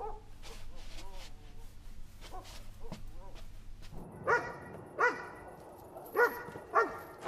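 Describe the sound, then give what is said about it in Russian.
A dog barks outside at night, giving a run of sharp, loud barks spaced about a second apart after an opening stretch of quieter murmuring sound. “Чего он там так лает, а?”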